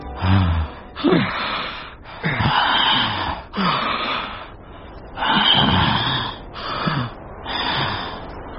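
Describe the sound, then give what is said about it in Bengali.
An old man gasps for breath with repeated heavy, rasping inhalations and exhalations. The strained breaths come in a ragged series, with some wheezing and snorting mixed in. “তিনিও বাইরে বেরিয়ে এসে প্রাণপণে শ্বাস নিলেন খানিক্ষণ।”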